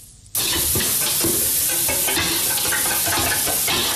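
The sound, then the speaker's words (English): Steady, loud sizzling of fish eggs frying as teenage boys cook their evening meal in an old house in Mae Sot. It starts abruptly after a brief quiet moment and continues as a dense, even hiss with faint stirring, without voices. “In an old house down a side street in Mae Sot, a group of teenage boys cook their evening meal together. What are you cooking? Fish eggs.”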